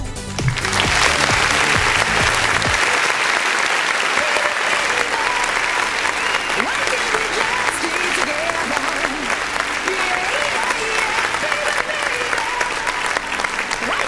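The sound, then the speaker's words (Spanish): Sustained applause from a crowd, dense and loud clapping that holds steady for about fourteen seconds without a break. “Así que para ustedes vaya este cariñoso aplauso.”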